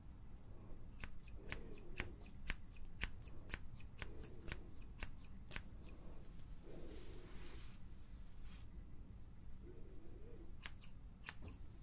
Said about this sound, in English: Got my comb and my scissors. So you just keep your head nice and straight for me. Just because if you have your head lopsided, you might end up with a lopsided cut,